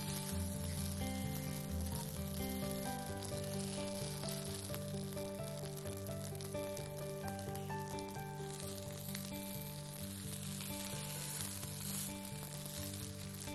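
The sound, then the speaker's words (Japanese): Hamburger patties sizzle in a frying pan after being flipped, giving a continuous, even crackle under steady background music throughout. “底がしっかりと焼けて周りが固まってきたらひっくり返すサインです。で一つずつゆっくりとひっくり返します。”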